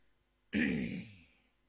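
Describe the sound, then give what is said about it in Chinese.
A man's light cough, one short throat clearing that starts sharply and fades away within about a second, heard alone against near silence. “李福方轻咳了一声”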